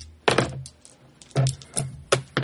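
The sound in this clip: Dice are rolled on a table during a tabletop game. Several short, separate bursts of sharp clattering knocks, each a dull thud with a bright rattle, are spaced irregularly across the moment.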